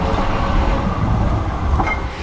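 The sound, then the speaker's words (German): A cargo tram carrying parcels pulls into Frankfurt's city centre, a loud, continuous rolling rumble of rail wheels with a faint rattle, steady throughout and with no voices. “Was hier in der Frankfurter Innenstadt angefahren kommt, ist keine normale Straßenbahn. Mit dieser hier werden keine Personen transportiert, sondern Päckchen und Pakete.”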